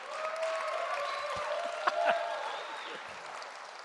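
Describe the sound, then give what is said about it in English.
An audience at a church gathering applauds to welcome a guest speaker to the stage. The clapping is faint and steady and continues without a break. “And you may not have applauded so hard.”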